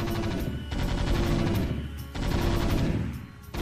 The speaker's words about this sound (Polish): Usłyszałeś wystrzały.